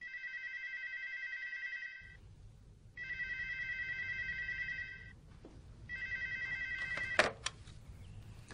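A telephone rings unanswered while a caller waits: three long, steady electronic ring tones separated by short pauses, with a sharp click cutting the third ring short.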